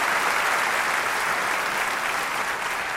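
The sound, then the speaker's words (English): Audience applause welcoming a guest author to the stage, a dense, even wash of many hands clapping that holds steady and continuous throughout. “Well, let's just give a hand to Erwin McManus.”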